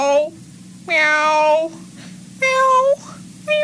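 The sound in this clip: A person imitates a cat, giving several drawn-out, whiny meows with clear harmonic tones, separated by short pauses.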